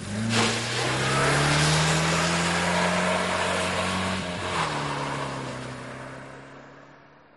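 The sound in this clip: A car engine accelerating: a loud, steady engine drone whose pitch rises gradually, dips briefly after a few seconds, then carries on and slowly fades out.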